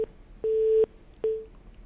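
Low, steady telephone line tone beeps as a call drops and the line disconnects: three beeps, the middle one longest, separated by short silences.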